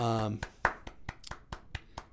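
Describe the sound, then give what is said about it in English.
Sharp, evenly spaced hand claps as an audience applauds two brothers from Canada. The claps follow a brief voice at the start and come in a steady run, each one crisp and distinct. “Big round of applause for them. Oh, to them. I was like, I thought you were like correcting myself. No. Big round of applause for the two of those guys.”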